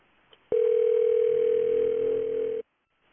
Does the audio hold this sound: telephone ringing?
yes